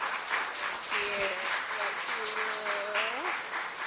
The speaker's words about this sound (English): So Gene and Nicole, come on forward. Let's give them a hand, a welcome, warm welcome.